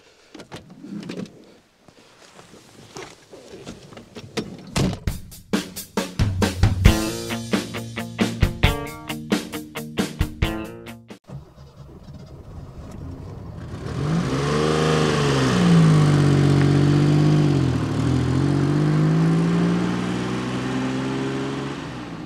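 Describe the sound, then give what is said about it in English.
An SM car being taken out for a drive: a run of irregular mechanical clatters and bursts comes first, then the engine settles into a steady drone that swells as it revs up and down, growing louder. “The end result is this, the SM. Let's take it out for a drive”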